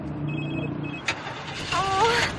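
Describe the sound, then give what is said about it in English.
A car engine is being started: a sharp click comes midway, then a brief, faint whirring whine of the engine cranking. “Start the engine. What happened?”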